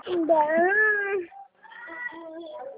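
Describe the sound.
A young pet animal crying, with two drawn-out, tonal whining calls; the first is longer and wavers in pitch, and after a brief pause the second comes softer.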